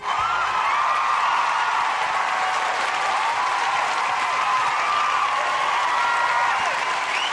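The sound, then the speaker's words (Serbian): Loud, sustained applause from an audience at the close of a show honoring several guests, dense clapping holding steady throughout without a break. “I ja za sam kraj ove emisije molim još jedan veliki aplauz za sve njih.”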